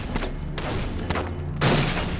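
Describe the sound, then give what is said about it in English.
Sniper rounds striking a house and outbuildings in an audio drama: a few sharp, shattering impacts with heavy low thuds, ending in a louder burst. “Snipers from out in the darkness began sending random rounds into the house and the outbuildings, forcing everyone to seek shelter and stay low.”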